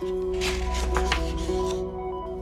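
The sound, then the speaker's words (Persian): A page being turned gives a soft papery rustle that swells and fades over about a second, set against a steady, faint tonal background. “ورق میزنم.”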